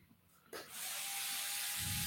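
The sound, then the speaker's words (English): A screw gun drives a fine-thread drywall screw: after a quiet moment the motor starts suddenly and holds a steady, faint high whine until the end. “So we're just going to go ahead and mount this in here. Yeah. With the right tip. My screw gun here.”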